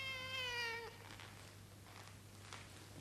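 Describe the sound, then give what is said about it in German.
A cat meows once in a quiet workshop with no machines running: one drawn-out, slightly falling cry lasting under a second, followed by faint hiss and a low steady hum. “Es war so still, dass man deutlich ein Miauen hörte.”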